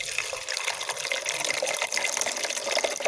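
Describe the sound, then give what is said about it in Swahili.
Water gushes from a water vending machine that runs on coins or a card and is worked by a button. A continuous loud, hissing splash runs without a break through the whole clip. “Msikizaji, ili maji yatoke, unaweka kiasi cha shilingi 200 au kadi maalum katika mashine hii, unabonyeza na utapata huduma hii ya maji.”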